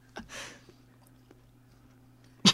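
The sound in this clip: Someone eats and chews food, making a few faint, soft crunching and smacking sounds, followed by one brief, louder sharp noise at the end.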